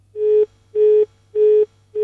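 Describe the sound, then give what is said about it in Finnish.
Telephone line beeping on a radio call-in show: a steady run of even, mid-pitched electronic beeps, about four, evenly spaced with short gaps, over a faint low hum. No voices. “nyt piippailee, mutta kyllä siellä soittaja pitäisi.”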